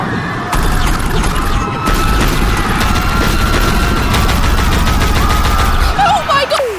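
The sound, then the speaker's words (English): A glowing eye-shaped weapon fires a loud, dense barrage of many rapid sharp cracks over a heavy roar. A short warbling tone follows near the end. “The eye begins to glow bright as if readying to engage. The eye fires.”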